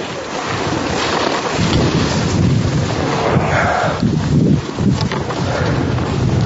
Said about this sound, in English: And now we're come to a nice place where we can take a general ride down. Beautiful snow. It's packed powder.